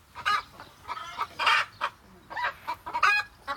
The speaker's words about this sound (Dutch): De kippen scharrelen hier lekker rond op je erf.